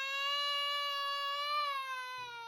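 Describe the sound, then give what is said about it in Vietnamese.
A newborn baby cries loudly in one long, sustained wail that holds a steady pitch and sags slightly toward the end. “đứa bé đỏ hỏn khóc ầm ĩ lên”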